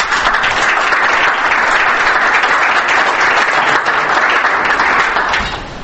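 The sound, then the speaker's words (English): Loud, dense audience applause welcoming a speaker at an industry show in Toronto, a steady roar of many hands clapping that holds evenly, then tapers off at the very end. “So please give a welcome hand for Dr.”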